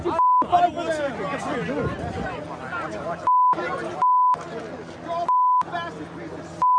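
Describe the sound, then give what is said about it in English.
Censorship bleeps cut into angry shouting from pro-Palestinian protesters cursing at police by a knocked-down fence. Several steady, flat beeps interrupt the loud, overlapping yelling voices. “I had to bleep a lot of this.”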